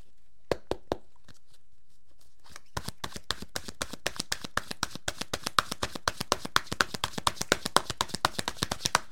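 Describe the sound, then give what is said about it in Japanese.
Oracle cards being shuffled: a few soft taps open, then a long, steady run of rapid, crisp papery clicks carries on to the end with no talk. “はい、こちら、せーの、よいしょ。スプレッドザライトのカードが出てきました。”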